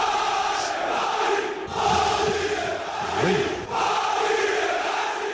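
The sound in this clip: Cheering crowd welcoming PSG players back to Paris after a record league title. The sustained roar of many voices swells and dips a few times, with shouted calls rising above it.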